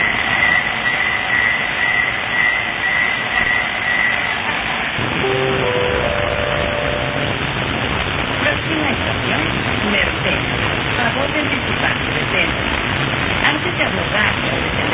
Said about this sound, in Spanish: Y una de las cositas que está notando la gente es justo esto, ¿no? La diferencia en el sonidito para alertar a la llegada de la próxima estación.